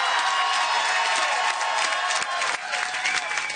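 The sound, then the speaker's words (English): Supporters cheer and applaud at a Federal Liberal watch party in North Vancouver, a dense, unbroken wash of crowd noise and clapping throughout. “Those are the sounds from the Federal Liberal Watch Party in North Vancouver last night. And, of course, you hear their former Vancouver mayor, now Member of Parliament, Gregor Robertson, and supporters were cheering on Braden Cayley, the new Member of Parliament,”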